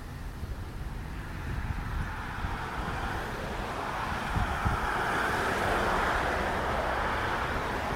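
Wind blows steadily outdoors, a continuous broad rushing roar with low rumbling buffets that grows slightly louder toward the end.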